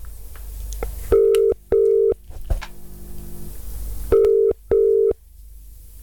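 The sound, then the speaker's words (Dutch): Phone ringing tone as a call is placed, two loud pairs of steady mid-pitched beeps separated by a long pause, with faint background noise between them. “Oké, ik ga ze nu bellen.”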